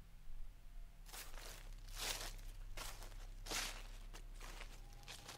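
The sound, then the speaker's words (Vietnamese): Faint rustling footsteps come from outside in a banana garden beyond a window. A few soft, crunchy steps rise and fade over a low, steady background hum. “Nó nghe có tiếng bước chân loạt soạt. Ai đó đang đi ở bên ngoài vườn chuối, bên kia cửa sổ.”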